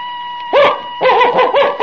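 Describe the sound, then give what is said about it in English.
A human voice imitates a dog barking, giving one short yap and then a longer run of quick woofs over a faint steady high tone. “If I told you to bark like a dog,”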